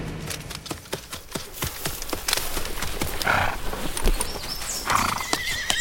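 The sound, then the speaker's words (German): Horses at a stud farm: many quick, sharp hoof clip-clops sound in an uneven rhythm, broken by a couple of loud whinnies, with no voices. “Nette Tiere. Gibt's sie auch in klein? 2 Pferde wollen Sie?”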